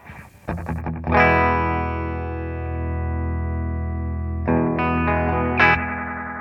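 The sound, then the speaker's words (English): Distorted electric guitar from a 1978 Ibanez Iceman, played through a 1976 Roland DC-50 digital chorus set for slapback echo: a few muted strums lead into a loud ringing chord that sustains, then further chords are struck near the end. “It's a slapback. That's actually really pleasant. Doesn't get in the way. It's controllable. It's not too loud.”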